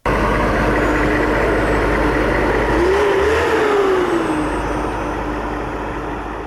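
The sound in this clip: Tank engine running in an armored convoy on the highway between Lashkar Gah and Kandahar: a loud, continuous rumbling drone with a mid-pitched tone that rises briefly and then falls back midway.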